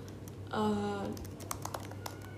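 Faint typing on a computer keyboard, a few sparse, soft key clacks at low level against a quiet background.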